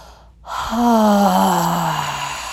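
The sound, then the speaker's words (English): A deep, full exhale during a guided breathing exercise, voiced like a long sigh. After a brief rush of air and a short pause, it sounds steady and fairly loud for about two seconds, sinking slightly in pitch. “And as you exhale, exhale fully.”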